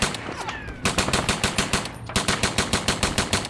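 Rapid automatic gunfire erupts during an armed police confrontation with a suspect. A short noisy lead-in gives way to a loud, steady stream of sharp shots in quick, regular succession, with a brief break midway.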